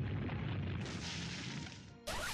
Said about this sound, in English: Foe Recobra used Sonic Boom.